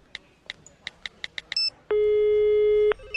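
Telephone tones while dialing a call: a quick run of about eight short beeps is followed by a long, steady, loud tone that lasts about a second and then cuts off, with no voices.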